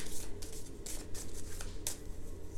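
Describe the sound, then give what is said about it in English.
Cards are pulled from a Lenormand card deck, giving a few crisp papery slides and snaps at uneven intervals over a soft background rustle. “Let me pull a couple other cards with this note.”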